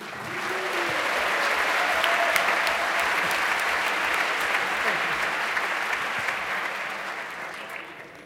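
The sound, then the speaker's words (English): Audience applause for the Jeopardy team at an event, a sustained wash of clapping that swells early, holds, and slowly fades toward the end, with faint talk underneath. “Round of applause for the Jeopardy.”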